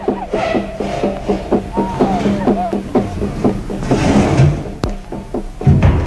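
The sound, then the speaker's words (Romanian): A lid shuts with a single sharp click after a button is pressed, cutting through steady rhythmic thumping and people talking. “Capacul s-a închis. Acum n-au pe unde să mai intre.”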